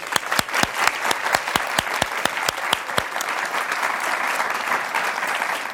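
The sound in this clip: Audience applause welcoming the president and CEO of HP Enterprise onto the stage at a leadership talk: a few sharp claps, then dense, steady clapping from the crowd that holds at an even level throughout.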